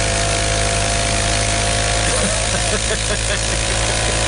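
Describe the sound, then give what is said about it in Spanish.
An old motorcycle engine runs steadily, a loud, rough, continuous mechanical drone that holds without pause from start to end. “Es una moto como el tiempo de Cristóbal Colón.”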